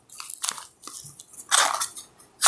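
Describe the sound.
Raw butter being eaten, with a few distinct bites and chewing sounds in short bursts, the last one the sharpest. No one talks.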